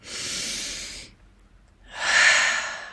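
Two long, airy breaths, separated by a short pause, are taken slowly and steadily during a guided relaxation exercise; there is no talk.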